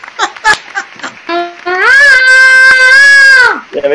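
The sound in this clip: A human voice imitating a hard-rock singer's high scream: a few short vocal yelps, then a long, loud, sustained high-pitched wail that holds steady and then drops off, followed by brief vocal sounds.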